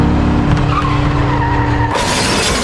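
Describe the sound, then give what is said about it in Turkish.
A car crash in a shopping mall parking lot: the driver hit the gas instead of the brake, struck a parked car, and both cars slid into a cafe. A loud, sustained roar and skid ends in an abrupt, harsh burst. “Ayağı fren yerine gaza gitti. Park halindeki otomobile çarptı. İki araç sürüklenerek kafeye girdi.”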